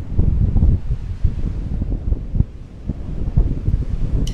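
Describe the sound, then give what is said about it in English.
Strong wind blows outdoors on a freezing night, buffeting the microphone with loud, gusty low rumbling that swells and dips throughout, with no voices. “I leave you now with the sound of goddamn wind.”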